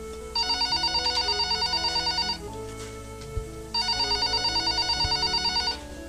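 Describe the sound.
A telephone rings in two fast-trilling electronic bursts separated by a short pause, loud and steady, with a soft low background bed underneath and no voices.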